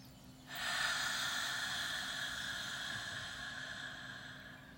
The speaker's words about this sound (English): Let's take a final deep breath in, very slow.